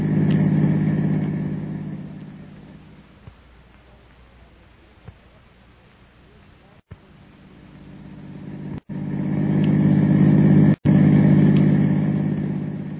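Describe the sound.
Car driving off, with a steady low engine rumble that eases off in the middle, then swells louder again toward the end.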